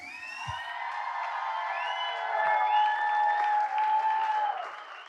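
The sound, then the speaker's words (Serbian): A concert audience applauds for a band member, with dense clapping and a few cheers. Sustained musical tones ring over the applause before it fades at the end. “Molim vas, jedan veliki aplauz.”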